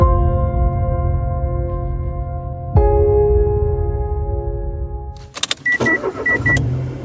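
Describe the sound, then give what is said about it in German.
A car drives with a steady, humming engine drone that shifts tone once partway through, then gives way to a few clicks and short, repeated high electronic beeps near the end. “Ich fahre jetzt wieder nach Hause”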